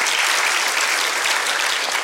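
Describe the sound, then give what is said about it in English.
A church audience applauds a pastor with steady, dense clapping that stays at an even, fairly loud level for the whole stretch, without a break. “Can we give him a hand clap?”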